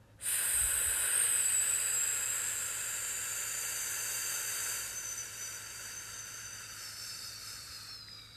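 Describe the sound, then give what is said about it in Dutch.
A person breathes out in a long, steady exhalation on an F sound during a relaxation breathing exercise. It makes a bright, airy hiss that holds for about eight seconds and softens slightly toward the end. “Niet meer actief inademen, weer uit op een F.”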